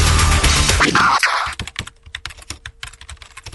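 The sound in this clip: Keys clatter on a computer keyboard as someone types an online review of the WLP 400 yeast strain. A loud, dense passage opens, then many quick, uneven clicks follow in an irregular rhythm.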